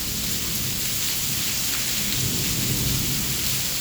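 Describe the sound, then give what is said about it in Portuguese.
Heavy rain with thunder pours down steadily as a dense, even hiss, with a low rumble of thunder underneath and no voices. “Tá chovendo em mim”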